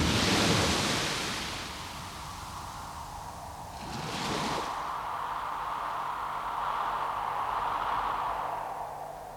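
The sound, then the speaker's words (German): Sea waves rush in a broad, continuous wash. A strong surge at the start eases off, a brief burst follows midway, and a steady roar carries on with a low tone beneath. “Das Meer.”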